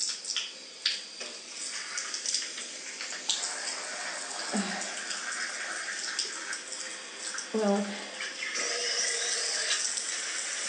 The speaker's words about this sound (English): let's turn on the shower.